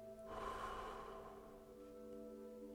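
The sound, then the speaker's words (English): A deep breath is slowly let out during a guided calm-breathing exercise: one long, soft, airy exhale that swells early and then fades, faint, over a steady low tonal hum. “So first begin by taking a deep breath in. Hold it and then let it out.”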